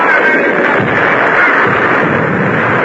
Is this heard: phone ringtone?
no